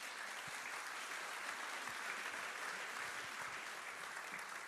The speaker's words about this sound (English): Boss, come on, let's put our hands together and let's welcome Boss.